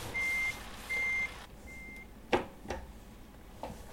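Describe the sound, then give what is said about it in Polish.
Reversing beeps from a backing truck: three steady, high-pitched electronic tones, each about half a second long, evenly spaced. They are followed by a few sharp, brief clicks or knocks against a low background hum. “Muszę się tak wycofać. Mam nadzieję, że to nic nie jedzie.”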